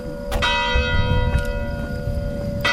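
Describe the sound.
Church bell ringing from a bell tower near a countryside chalet, a few clear strikes over a sustained, humming ring of overlapping tones that holds steady throughout.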